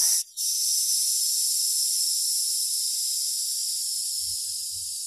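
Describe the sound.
A long, deep exhale out through the mouth during a guided breathing exercise, a loud, steady breathy hiss that follows a brief break at the start and runs for about five seconds, easing slightly toward the end.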